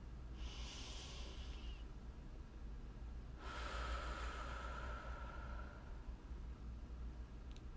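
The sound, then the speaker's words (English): A slow, deep breath in and out, heard as two soft, airy rushes of air, a shorter one followed by a longer, drawn-out one, quiet and alone without talk. “Let's begin with taking a slow, deep breath.”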